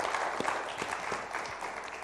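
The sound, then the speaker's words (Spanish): Audience applause for the musicians at a meeting: a dense, even patter of many hands clapping that continues steadily throughout, with no voices. “¿Por qué no le damos un aplauso a ellos? Hicieron un excelente trabajo.”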